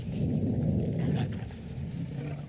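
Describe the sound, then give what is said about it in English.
A stomach rumbling: a low, steady, growling gurgle that holds for a couple of seconds and eases slightly toward the end, heard alone. “Tell me that was your stomach. Shh. I'm sure it was just thunder from underground.”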